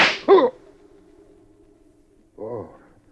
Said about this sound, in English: When you shoot somebody, Carter, be sure you keep possession of the gun. Craig, I, I didn't mean to shoot you. It was an accident in the struggle for the gun.